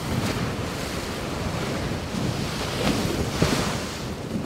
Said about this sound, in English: What you're hearing are the collisions as a Canadian research icebreaker was cutting through Arctic sea ice in the Northwest Passage in the summer of 2017.